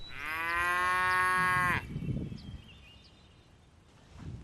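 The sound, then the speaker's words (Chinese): A single long, loud moo from a cow in a herd of cattle, steady and harmonic for nearly two seconds, followed by quiet outdoor background with faint rustling. “保利高清点牛群数量”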